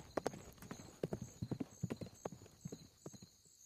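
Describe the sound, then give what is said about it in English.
Horse hooves clip-clop as a rider rides off, with many quick hoof strikes in a steady, uneven rhythm. The sound is faint, with no talk, and thins out near the end. “he changed his course and began to ride off in the direction of Old Tom's Inn.”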